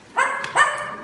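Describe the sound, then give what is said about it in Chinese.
A performer in a comedic crosstalk act imitates a dog barking, giving two short, voiced woofs in quick succession, loud and alone with no other sound. “我先问问您啊，这个最简单的啊，这狗怎么叫？”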